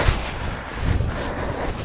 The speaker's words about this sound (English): it's the wind. It's the wind that's the problem, because everything shakes.